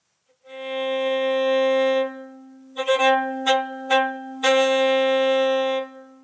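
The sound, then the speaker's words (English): A violin, freshly freed from its packaging, is played with a long steady bowed note, then a few short uneven strokes, then another long held note that stops abruptly. “The violin needs setting free because of the packaging that came with it. So if I just remove the packaging and try again, I should get a better sound this time.”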